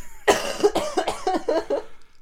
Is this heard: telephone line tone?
no

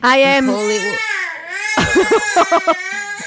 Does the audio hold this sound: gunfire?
no

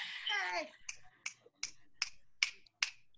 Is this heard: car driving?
no

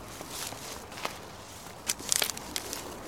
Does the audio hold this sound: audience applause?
no

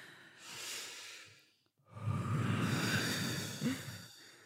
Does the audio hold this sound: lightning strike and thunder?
no

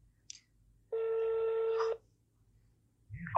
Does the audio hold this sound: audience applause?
no

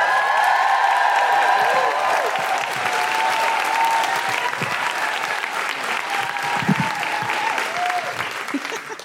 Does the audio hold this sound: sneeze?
no

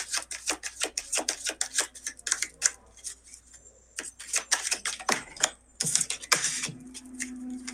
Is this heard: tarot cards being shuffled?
yes

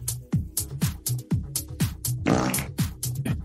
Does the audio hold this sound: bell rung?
no

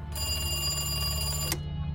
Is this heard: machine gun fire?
no

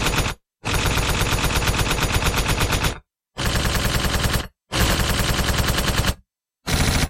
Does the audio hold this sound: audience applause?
no

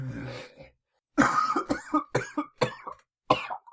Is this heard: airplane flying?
no

